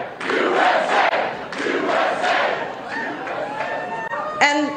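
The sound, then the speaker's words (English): A crowd chants "USA" at a political rally in loud, rhythmic bursts of many voices. A single voice speaks near the end as the chant fades. “All she had to do was say USA and the audience immediately knew what to do.”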